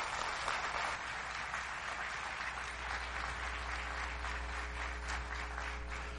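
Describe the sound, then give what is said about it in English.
An audience at a church service applauds to welcome a pastor to the stage: steady, dense clapping that carries on evenly, with a low hum beneath it. “Will you give him a hand, please?”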